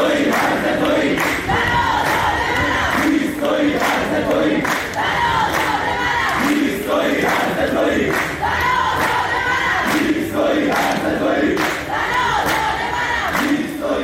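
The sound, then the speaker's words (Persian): Students chant at a protest at Babol Noshirvani University in Iran, a dense crowd shouting together in a steady, loud, rhythmic cadence that carries on without a break. “بله، صدای دانشجویان در دانشگاه نوشیروانی بابل بود.”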